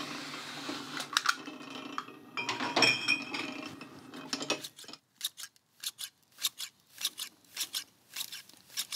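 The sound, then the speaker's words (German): Scissors snip the ends of hair during a trim, with many sharp, crisp metallic clicks in quick, uneven succession. The snips follow a denser, rustling stretch. “Einmal Spitzen schneiden und rasieren.”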